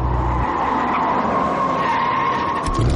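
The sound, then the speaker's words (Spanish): Tires screech as a car brakes sharply beside others at a red light, a loud, sustained squeal with a steady whine lasting about three seconds over a low engine rumble. “¡Mierda! ¡Espera! Y frena bruscamente junto a ellos.”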